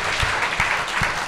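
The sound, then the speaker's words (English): A short burst of dense audience applause for a guest at a casual event, steady and loud, with a few low thumps mixed into the clapping. “Yeah, a round of applause for Hayden. Yeah, give him a round of applause.”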